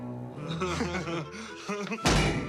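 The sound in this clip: Heavy slam of a kicked cell door swinging shut as its bolt slams home: a single loud, deep thud near the end, following a stretch of quieter tonal sound.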